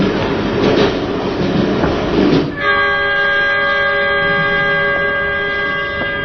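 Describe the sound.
Passenger train running, a loud rumbling clatter that gives way to a long, steady horn-like tone held to the end.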